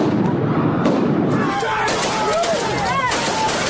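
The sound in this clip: Police firing tear gas and rubber bullets at protesters: scattered sharp pops cut through a constant wash of crowd noise, with shouting voices rising over the din.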